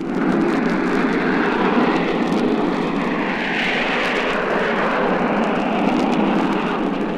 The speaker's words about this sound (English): that's the sound of that grand old lady of the Clyde, Lucy Ashton, just beginning to move through the water under jet power for the first time.